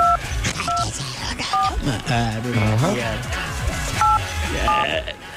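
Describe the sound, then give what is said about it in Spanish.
Telephone number dialed on a touch-tone keypad: three short two-note beeps, then voices talking over the line, then two more beeps. “Voy a marcar.”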